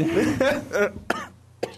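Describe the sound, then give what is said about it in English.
Someone coughs while choking on a cough drop: a few harsh, rasping coughs, the first ones throaty and voiced, then sharper short bursts separated by brief gaps. “Asphyxiating on a cough drop.”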